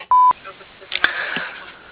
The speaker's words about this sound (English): At the tone, please record your message. When you've finished recording, you may hang up or press 1 for more options.